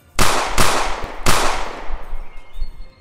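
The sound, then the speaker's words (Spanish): Three loud gunshots, the last bullets fired at a fleeing man in a bar, each a sharp crack with a long decaying tail, the third after a slightly longer gap. “Christopher aprovecha para dispararle tres últimas balas.”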